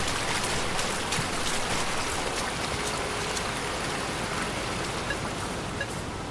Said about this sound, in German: Hier ist offenbar voll der Wasserfall.